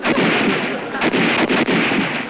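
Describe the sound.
Artillery fire in a battle, with a few sharp, booming blasts at irregular intervals over a constant loud roar.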